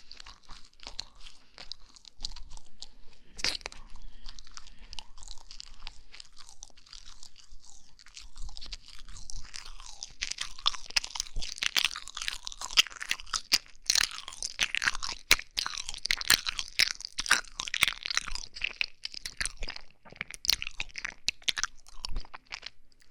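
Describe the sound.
Someone chewing crunchy food gives many sharp, crisp crunches in an uneven rhythm. The crunches grow denser and louder in the second half. No one speaks.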